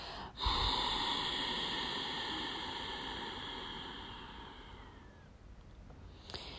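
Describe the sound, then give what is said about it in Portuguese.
A long exhale through both nostrils during a breathing exercise: one steady, breathy rush of air that runs about six seconds, gradually fading toward the end, with no talking. “Expira longo por ambas as narinas.”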